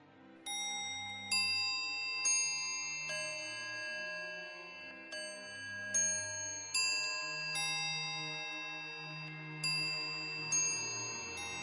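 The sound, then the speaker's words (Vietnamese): Bell chimes from a clock striking midnight in a house at night, in a spoken ghost story. A series of bright metallic strikes, unevenly spaced, each leaving a lingering ringing tone, fairly faint. “Chuông thoáng vang lên, tiếp đó lại liên tục vài tiếng.”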